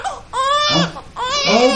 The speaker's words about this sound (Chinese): 不哭不哭，不哭不哭不哭不哭，他饿了啊